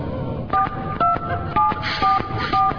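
A telephone keypad beeps as a number is dialed: five short, clear two-pitch tones in an even rhythm over a steady noisy background.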